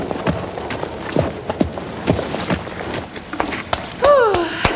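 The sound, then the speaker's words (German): Horse hooves thud in an irregular series of many muffled hoofbeats as a rider leaves a dressage arena after the final halt and salute, over steady background noise. “So pariert sie durch, bringt Josefina vor den Prüfern zum Stehen und verabschiedet sich mit einem Gruß, bevor sie vom Platz reitet.”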